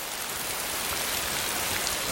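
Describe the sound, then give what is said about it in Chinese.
Steady rain falling outdoors on a rainy day at an imperial palace, a dense, even hiss of drops that stays constant throughout, with no voices. “这外头下雨天的， 要不怎么叫赏雨呢？”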